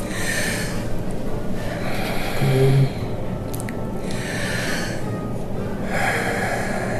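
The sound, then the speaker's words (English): A patient takes slow, deep breaths in and out while a doctor examines her at a family care practice. A few loud, airy breaths are separated by short pauses, over a steady background hiss. “A couple deep breaths.”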